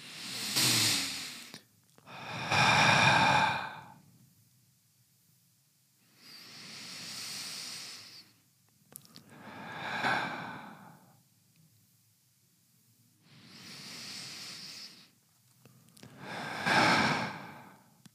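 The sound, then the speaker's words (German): Three slow, deep breaths taken through the nose, each a long airy inhale and exhale, giving six soft hissing bursts separated by short silent pauses. “Lass uns mal drei Atemzüge durchführen. Dann können wir es aber. Achtung. Durch die Nase aber.”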